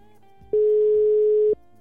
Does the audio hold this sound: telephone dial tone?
yes